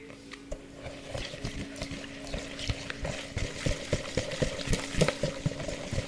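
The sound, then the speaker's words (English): Ingredients with a pinch of salt are whisked together in a bowl: many quick, quiet clicks and scrapes in a fast, steady rhythm under a faint hum. “now when you have everything in a bowl, you're just gonna whisk them all together.”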